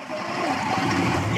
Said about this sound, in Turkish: İçeriye su giriyor.